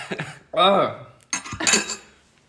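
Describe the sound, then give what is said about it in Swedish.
A spoon is set down on a plate during a meal of salty caviar, giving a few short clinks of metal on dishware that sit among and beneath people talking. “Du kan lägga skeden på din tallrik.”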